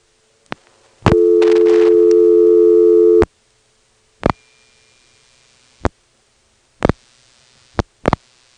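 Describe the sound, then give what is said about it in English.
A telephone PBX line rings in a local office. One steady tonal ring burst lasts about two seconds, followed by several sharp, isolated clicks on the line. “This next call goes to a PBX ring in one of the local offices.”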